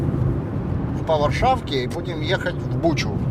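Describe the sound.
A car driving along Warschauer Straße toward Butscha, its low engine and road rumble running steadily under a man talking.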